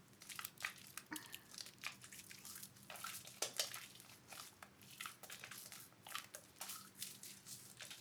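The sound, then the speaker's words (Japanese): Bare hands wash a body with water in place of a body towel, making many faint, wet squelching and crackling strokes in an uneven rhythm, with no one talking. “丁寧に洗うためにボディタオルではなく手で綺麗に洗っていきますね。”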